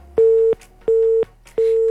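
Telephone busy tone after a call disconnects: three identical steady mid-pitched beeps, evenly spaced with short silent gaps between them, moderately loud with no talk.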